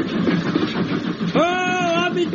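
A train runs on rails with a continuous, dense rumble and rattle that stays fairly loud throughout the short stretch.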